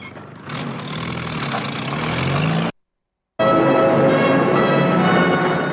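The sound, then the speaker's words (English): A Jeep pulls up and idles, its engine giving a steady, rough rumble. The sound cuts out briefly midway, then resumes at a slightly louder, even idle. “Adams pulls up in his Jeep.”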